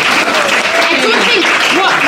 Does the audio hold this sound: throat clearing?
no